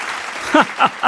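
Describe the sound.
Applause breaks out as a speech ends at a salt satyagraha gathering: steady clapping that swells into a few louder bursts toward the end.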